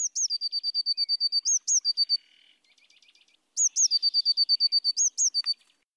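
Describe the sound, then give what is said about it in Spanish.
A blue tit, a small blue-and-yellow bird, sings two bursts of rapid, high, evenly repeated notes, separated by a quieter stretch of faint twittering. “El herrerillo, un pequeño pajarito de color azul y amarillo, suena así.”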